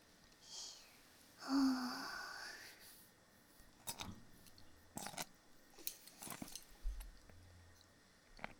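Chewing of bamboo shoots: several crisp, crunchy bites and chews come in short irregular bursts, fairly faint, with brief gaps between them.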